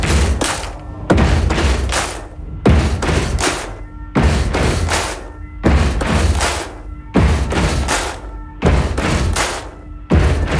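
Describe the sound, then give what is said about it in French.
An audience stomps its feet and claps its hands together in a loud, steady repeating stomp-stomp-clap rhythm, each cycle of heavy thuds and a sharp clap recurring several times without pause. “Je vous l'avais dit, on tape dans les mains et on tape des pieds.”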